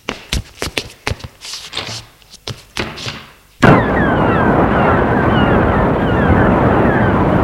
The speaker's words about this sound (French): Alors il fait nuit, la mer est houleuse.